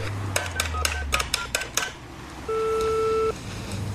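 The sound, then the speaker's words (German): A telephone number being dialed with DTMF tones: a quick run of short tapping tones, then a single sustained two-tone beep. “Wählen Sie Ihre Nummer. Ich rufe Sie an.”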